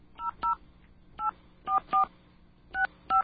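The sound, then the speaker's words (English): Telephone keypad dialing tones placing a call to a toll-free 800 number: seven short, clear two-tone beeps in uneven groups, with no talk. “the station where you'll actually be able to hear things like us dialing it live on the air. All right, let's do it. We're going to call a 800 number.”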